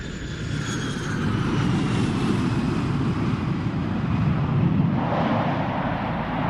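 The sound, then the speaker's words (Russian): Steady, loud roar of an airplane engine as the aircraft lands, a dense continuous rumble that holds at an even level from start to finish without breaks. “Самолет приземлился”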